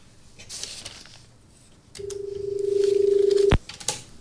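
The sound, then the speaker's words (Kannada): A phone call connecting on a radio phone-in program: a steady, low-pitched ringback tone pulses for about a second and a half, then cuts off abruptly as the line picks up. “ಆರಂಭದ ಕರೆಯನ್ನ ತೆಗೆದುಕೊಳ್ಳೋಣ.”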